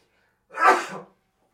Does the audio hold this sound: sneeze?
yes